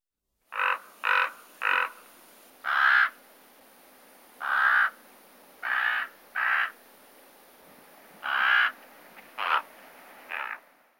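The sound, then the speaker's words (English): Ten deep, hoarse croaks from a common raven, given singly and in short clusters with pauses between. Each call is loud and clear against a quiet background. “Common raven.”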